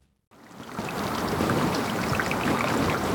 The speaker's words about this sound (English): There are some places in the world where the sound of running water is not welcome. This is the sound of a melting glacier.